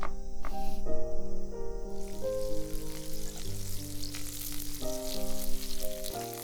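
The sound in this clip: Food sizzling and frying in a pan as someone cooks beside an open window in the countryside, a steady hiss that runs throughout over a soft melodic music bed.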